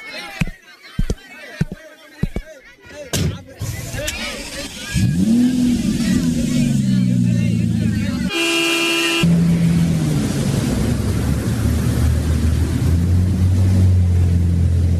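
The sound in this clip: A car drives with a steady engine rumble, and a single horn blast sounds midway. Clicks and bumps come before the engine settles, and voices are heard at times.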